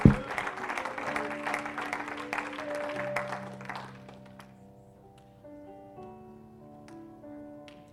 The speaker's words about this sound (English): one more time, clap your hands to the Lord, then you can be seated.